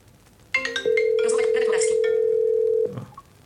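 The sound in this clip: Ringback tone of a phone call placed by a voice assistant: a single steady mid-pitched tone lasting about two seconds, with a voice speaking over its start.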